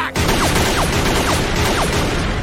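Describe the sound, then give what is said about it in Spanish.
Gunfire in an anime scene as many men shoot at Luffy: a loud, unbroken barrage of crackling noise, cut through by several quick whizzing streaks that drop in pitch. “Están todos los tipos disparándole a Luffy.”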